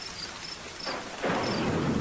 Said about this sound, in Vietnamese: một tia sét xé trời đánh xuống đất khô khan